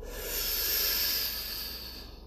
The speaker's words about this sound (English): Deep breath in now.